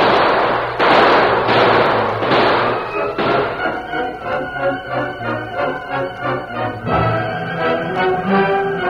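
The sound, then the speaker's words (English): Gunfire in a Western shootout as a posse fires on a gang below: a rapid volley of several sharp, loud reports in quick succession. “They're firing on him. Open up. There's the critters down below. Shoot at the gun flasher. Let him have it.”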